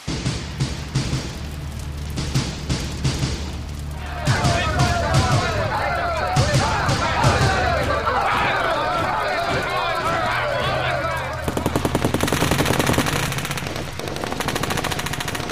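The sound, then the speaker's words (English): Riot sound effects with gunfire outside a studio: many sharp gun bursts, some in rapid automatic strings, over a loud, dense, continuous clamor that runs throughout. “John McCain won the presidency on Tuesday, and that sound you can hear just outside my studio is America going up in flames.”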